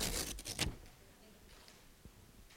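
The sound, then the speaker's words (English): Paper ripped by a group of people at once: faint, noisy tearing bursts crowd the first moment, then die away into near quiet. “Some of you need to go to ripping school.”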